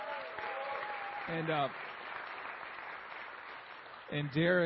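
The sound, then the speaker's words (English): An audience applauds to welcome a new staff member, steady crowd clapping holding at an even level throughout, with a man's voice breaking in briefly twice over it. “Can we give him a hand and just welcome him?”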